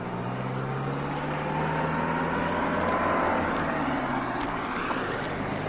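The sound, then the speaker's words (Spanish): A car driving off along a road, heard as a steady low engine drone with a smooth broad hum that swells slightly midway and continues evenly, with no voices. “Alex les dice adiós con la mano y observa cómo el coche se aleja por la carretera.”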